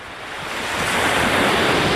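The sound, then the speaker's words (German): Ocean waves rolling onto the shore at Gibaron in Brittany: a broad, hissing wash of surf that swells in loudness over the first second, then holds a steady roar, with some wind noise. “Die Wellen von Gibaron in der Bretagne.”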